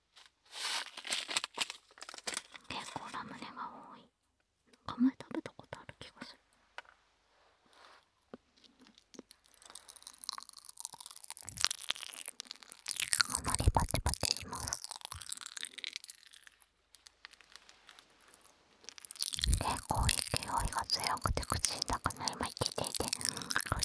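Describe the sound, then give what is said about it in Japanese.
A snack bag of ramune candy being opened and the candy eaten: crinkling and tearing plastic with crunchy chewing, quiet and close, with soft whispering throughout. “お時間の関係でもう開けて食べちゃいますけど、今度袋の音もやろう。すっごいいい音。ラムネが入ってる。”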